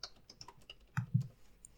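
Typing on a computer keyboard: a run of light, quick key clicks followed by a couple of heavier, thumping keystrokes near the end, with no voices.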